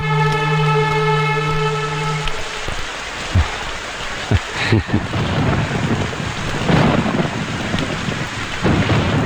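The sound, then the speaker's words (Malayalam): Heavy rain pours down as a dense, steady hiss with low rumbles running through it, and a sustained tone fades out in the first couple of seconds. “ഭയങ്കര മഴ, തോരാൻ കാത്തു നിന്ന ട്രെയിനും ബസ്സും ഒക്കെ പോകും.”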